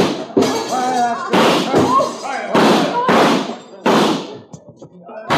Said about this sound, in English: I think I shoot out the lights before I go.